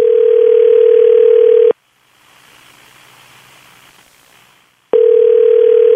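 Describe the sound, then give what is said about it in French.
A telephone ringback tone follows dialing a pharmacy number: two steady, buzzy, low tones separated by a long, nearly quiet pause. “Bon, ben, on se lance, on compose. Ça devrait sonner bientôt.”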